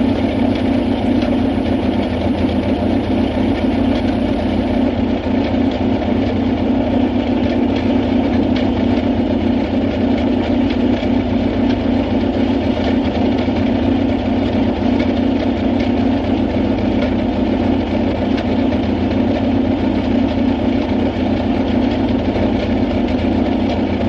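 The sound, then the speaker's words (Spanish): A vehicle engine left running at idle gives a loud, steady low rumble that holds unchanged for the whole stretch, with no voices. “Se apea sin apagar el motor y se acerca a ella caminando.”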